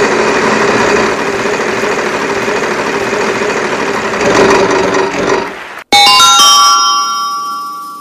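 A prize wheel spins in a hockey draft game, giving a steady whirring rattle for about six seconds. It cuts off abruptly, then bright ringing chime tones sound and slowly fade.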